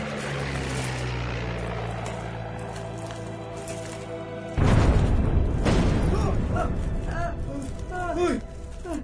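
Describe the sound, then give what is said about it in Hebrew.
A sudden loud bomb explosion cuts in halfway through a steady low droning hum. The broad, heavy rumble holds and slowly fades, and voices are heard toward the end. “אבא, על איפה הם זרקו את הפצצה עכשיו? לא יודע. נראה לי על איזה מבנה של צבא כאן.”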